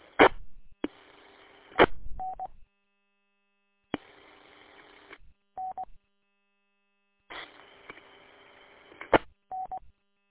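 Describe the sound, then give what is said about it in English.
Ham radio repeater Morse code identification beeps: a few short mid-pitched tone blips cut in after bursts of static hiss, with abrupt squelch tails between quiet gaps. “You gotta love it when the repeater Morse code decides to interrupt your conversation.”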